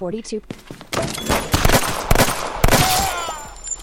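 Gunfire crackles through a video game firefight: many sharp, loud shots in rapid bursts, dense and overlapping, with brief gaps between volleys.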